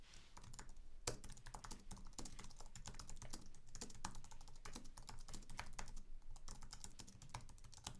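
Rapid typing on a computer keyboard: many quick, crisp keystroke clicks in a dense, uneven stream that runs steadily throughout, with no voices.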